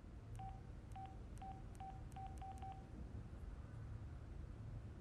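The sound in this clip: Faint telephone keypad tones as a number is dialed to reach someone's workplace: a quick run of short, evenly spaced beeps over a constant hissing background, then the noise continues alone.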